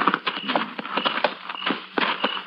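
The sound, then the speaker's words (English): Horses' hooves clip-clop at night as riders rein their mounts to a halt near mesquite. Many sharp, fairly regular strikes follow one another, uneven in loudness. “Woo, boy. Easy. Keep kind of late hours up here, don't they? Too late. Better tie the horses to that mesquite.”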